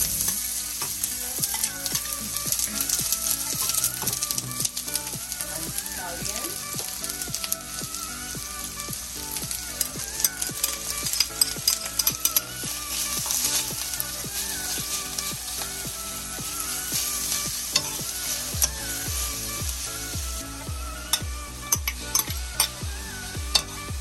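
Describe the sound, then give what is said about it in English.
Onion and scallion sautéing until soft for a vegan saltfish dish, a continuous sizzling crackle of frying in the pan with intermittent stirring. The steady hiss runs throughout with no voices. “We're going to saute onion and scallion until soft.”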